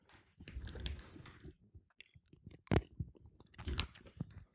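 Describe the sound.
Chewing of a marinated olive: many wet, crunchy bites in an irregular rhythm, with two sharper crunches later on and short pauses between them.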